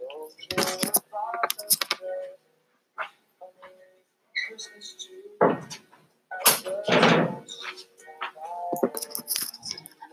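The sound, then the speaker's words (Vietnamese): A door being locked: a scattered series of sharp clicks, knocks and a few heavier thuds, separated by quiet gaps, with someone talking in between. “Ok các bạn, để mình ngồi tự để mình có thể lock cái cửa.”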